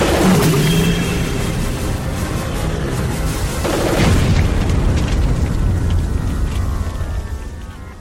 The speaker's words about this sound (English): Those pressure things could explode!